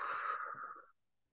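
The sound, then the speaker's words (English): A deep, faint exhale during guided relaxation breathing, a single breathy, airy release that trails off and fades to silence within about a second. “One last time, breathing in all the way from the soles of your feet, pulling that air up all the way to the top of your head. And exhale.”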